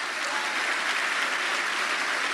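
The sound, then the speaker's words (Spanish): Applause from a crowd at a religious service, dense and steady clapping that holds at an even, fairly loud level throughout with no break. “Un aplauso al Señor.”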